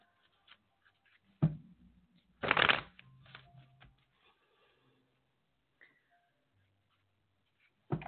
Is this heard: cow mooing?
no

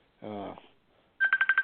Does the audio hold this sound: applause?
no

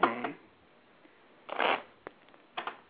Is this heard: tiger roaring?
no

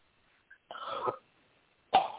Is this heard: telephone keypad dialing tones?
no

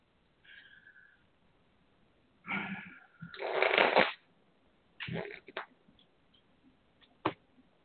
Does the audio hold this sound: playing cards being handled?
yes

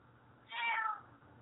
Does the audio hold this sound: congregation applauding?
no

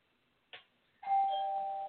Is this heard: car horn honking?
no

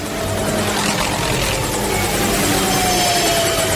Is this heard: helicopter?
yes

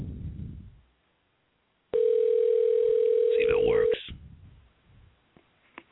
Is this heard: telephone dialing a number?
yes

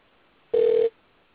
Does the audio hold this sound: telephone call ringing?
yes

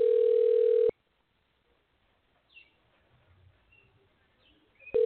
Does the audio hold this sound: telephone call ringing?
yes

